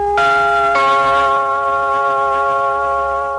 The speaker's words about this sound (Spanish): También Colombia, aunque en menor medida supo emplear el gong, siempre como acompañamiento de la señal identificatoria de la emisora o de la cadena comercial correspondiente.